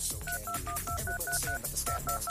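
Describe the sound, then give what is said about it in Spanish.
A telephone is dialed on a keypad, giving a rapid run of about ten short, evenly spaced two-tone beeps with a brief pause partway through, over a faint hum. “Vamos a marcarle a alguien más. No se preocupen, no se congojen. Aquí tenemos un montón de números, ¿ok? Marcando ahora.”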